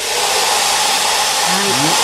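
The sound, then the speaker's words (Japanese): Two hair dryers blowing air together at balls in a static-electricity demonstration, making a loud, unbroken roaring whoosh that holds steady for the whole clip. “この 2つのドライヤーでね、風を当てております”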